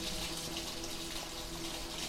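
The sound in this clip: Liquid flushes through an open sewer in a cellar, a steady, unbroken wash of gushing and rushing water that holds an even loudness throughout, with no talking.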